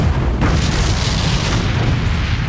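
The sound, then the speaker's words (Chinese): Explosions follow one after another in a loud, dense roar of overlapping booms, with a sharper blast early on and no break in the rumbling throughout. “紧接着一声又一声的爆炸接连响起，整个院内霎时间火光四起。”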